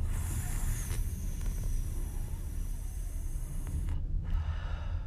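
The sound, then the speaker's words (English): Slow breathing exercise, drawing air in through a rolled tongue and letting it out with the tongue relaxed, a steady, airy hissing of breath that continues throughout. “So you're going to breathe in with your tongue rolled and then breathe out with your tongue relaxed.”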